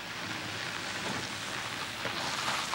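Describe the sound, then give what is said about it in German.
Rain falls as a faint, steady hiss of wet noise, continuous and even throughout with no distinct drops or other sounds standing out. “Belair war hinter dem Regen verborgen”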